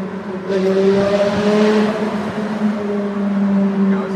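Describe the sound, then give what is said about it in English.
A car engine revs at the Goodwood Festival of Speed, the loud throaty note jumping up after half a second and holding a deep, droning tone that eases slightly toward the end. “Maybe the guy will throw a rev at us. There yep.”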